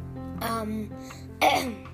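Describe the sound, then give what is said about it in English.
A person clears their throat with something caught in it: a short, rough, voiced rasp, then a sharper, louder harsh burst near the end. “Excuse me. And I have something in my throat.”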